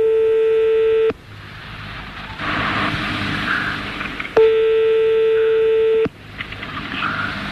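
Telephone tones as a number is dialed during a call-in: two long, steady electronic tones, each about a second or more, separated by a stretch of hissy line noise.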